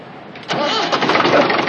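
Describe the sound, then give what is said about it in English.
A car engine starting after a faulty starter motor connection is fixed: a quiet moment, then the engine catches abruptly and settles into a steady, rough mid-pitched run. “You got a forward connection with your starter motor. Try it now.”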